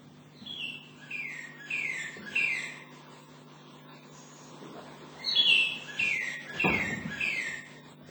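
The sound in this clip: A northern cardinal sings, recorded in Syracuse near the Great Lakes. It gives two separate phrases of clear, down-slurred whistled notes, each repeated several times, over a faint low hum, with one dull thump during the second phrase.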